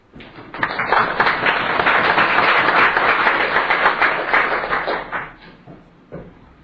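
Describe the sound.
Applause breaks out in the Alaska legislature to welcome guests, a dense, steady burst of many hands clapping for about five seconds before tapering off.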